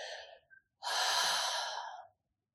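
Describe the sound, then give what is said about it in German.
A deep breath sighed out through the mouth during a guided meditation: a short, soft intake, a brief pause, then one long, airy exhale that fades to silence. “Dann nimm noch einen tiefen Atemzug, seufze den Atem, hauche ihn aus durch den Mund.”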